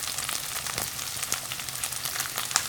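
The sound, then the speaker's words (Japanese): Shishito peppers fry at the edge of a pan next to flipped pieces of chicken in a mustard and soy marinade. The sizzle is a steady, hissing crackle with scattered small pops, heard alone. “ここであのししとうをフライパンの中に追加して、はい、端で一緒に焼いていきます”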